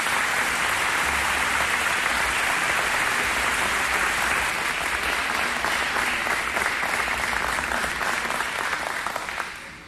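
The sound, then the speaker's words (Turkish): Loud, dense audience applause welcoming a singer at a festive holiday event. It holds steady for about nine seconds, then tapers off at the very end. “Alkışlarınız değerli sanatçımız Tuğrul Şahan için.”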